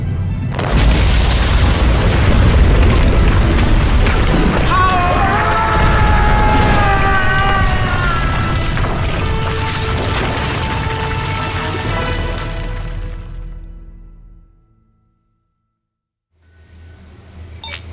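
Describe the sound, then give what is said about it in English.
Long, heavy explosion roar from a thrown phaser collapsing a hill in a science-fiction audio drama, loud and dense for several seconds with wavering whine-like tones, then gradually dying away to silence before a low rumble returns. “He's hoping the hill collapsing will drop us right into the caves. Of course, if I didn't throw the phaser far enough, it will blow us up.”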